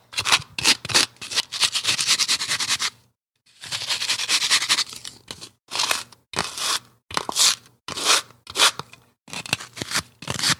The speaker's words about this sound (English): I'm gonna use a tarot card to put this weed into a good little pile.